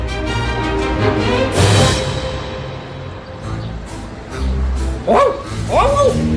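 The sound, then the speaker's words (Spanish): A man imitates a dog, giving a few sharp, yelping barks, most clearly near the end, over a steady low background. “Tu padre está ladrando, cariño.”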